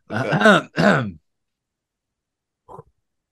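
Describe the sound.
Throat clearing thick with phlegm: two harsh, voiced rasping bursts in quick succession, followed after a pause by one faint, brief throaty sound.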